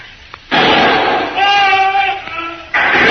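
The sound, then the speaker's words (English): A rifle fires a pot shot at a Japanese soldier during a jungle standoff. Two abrupt, loud blasts each break into a sustained roar, with tonal sound in between. “Get behind me now. I'll take a pot shot at it. Once us shoot, other Japs know us here.”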